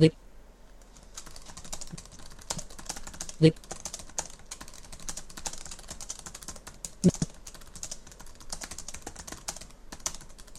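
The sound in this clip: A message is typed on a computer keyboard while sharing a Dropbox folder: a steady run of many soft key clicks, broken by a few sharper, louder taps.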